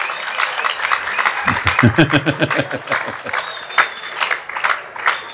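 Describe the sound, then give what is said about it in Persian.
An audience claps irregularly in bursts, with sharp individual claps standing out. A pitched, voice-like sound runs through the middle of the clapping. “اگه برای من دست میزنید ممنون”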